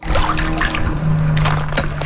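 Water sloshes and dribbles as a skimming net is dipped into a backyard swimming pool whose bottom is black with ash after a fire. The burst of splashing is brief and steady, with a few sharper splashes near the end.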